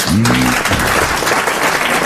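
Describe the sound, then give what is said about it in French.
Audience applause rises into a dense, steady wash of clapping that holds at a constant loud level for the whole stretch. “Applaudissez-le plus souvent, puisque ça le fait taire.”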